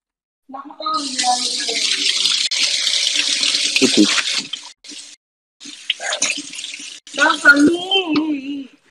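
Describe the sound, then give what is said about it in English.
Tap water running into a sink while someone washes their face, a steady hiss in two stretches separated by a short break, with a person speaking over the flow. “Wash my face off.”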